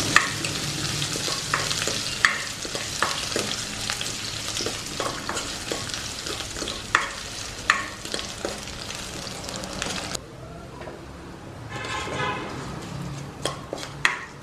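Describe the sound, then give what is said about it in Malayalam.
Chopped ginger stirred in a hot pan while cooking a mango curry: steady sizzling with frequent scrapes and light clinks of the spoon against the pan, growing somewhat quieter in the last few seconds. “ഒരു spoon ഇഞ്ചി അരിഞ്ഞതും കൂടെ ഇട്ട് കൊടുക്കാം. ഇതെല്ലാം നല്ലതുപോലെ ഇളക്കി കൊടുക്കാം.”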